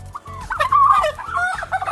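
A turkey in West Seattle gobbles: a fast, rattling, warbling call of several quick bursts over about two seconds, loud and alone.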